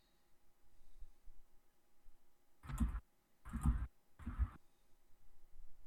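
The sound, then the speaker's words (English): Scratchy marks as notes are jotted down: three short, rough bursts in quick succession, fairly faint over a quiet background. “Sorry, jotting down something in my notes here. Right now he's writing down”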